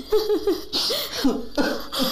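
A baby cries in a series of short, wavering, high-pitched bursts separated by brief catches of breath. The cries are fairly loud and heard alone.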